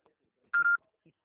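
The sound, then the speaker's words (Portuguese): Telephone dialing tones as a call is placed: two short, steady electronic beeps run almost back to back, clear and alone, with only faint traces around them. “Eu tô ligando pra ela aqui agora.”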